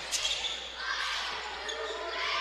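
A basketball dribbled on the court during a game, with faint, rhythmic bounces under a steady wash of crowd noise.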